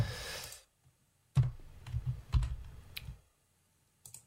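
Typing on a computer keyboard to copy and paste: a few sharp key clicks among soft, low tapping bursts, fairly faint, with pauses between them.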